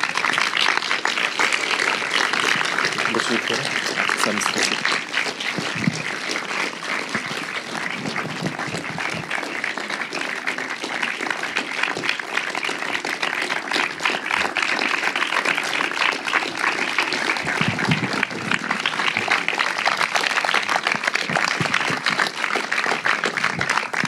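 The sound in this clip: Warm audience applause welcomes filmmaker Olivier Assayas, with dense, sustained clapping that holds an even level for the full twenty-four seconds.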